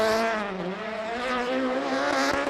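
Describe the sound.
Elfyn Evans's rally car is driven around Glasgow, its loud engine holding a sustained harmonic note that dips early and then climbs as it revs through the run, with no speech.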